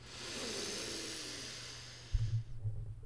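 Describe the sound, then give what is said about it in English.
A deep breath drawn in during a guided prana breathing exercise makes a long, steady, airy hiss that fades out. A few soft low thumps follow. “Let's take in some prana. Let's take a breath in”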